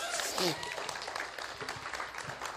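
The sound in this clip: A church audience applauding to welcome the pastor's wife, a dense, steady clatter of clapping with voices talking over it.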